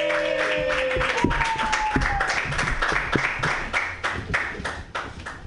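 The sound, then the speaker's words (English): Audience applause greets a comedian coming onto the stage at a comedy show, a dense, steady wash of clapping that holds at an even level throughout. “Put your hands together. Yeah. For Murat Chalky. Yay.”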